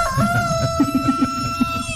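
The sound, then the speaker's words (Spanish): A rooster crows in a long, steady, high tone that carries through the whole moment, with a rhythmic string of low clucks beneath it. “canta, gallo.”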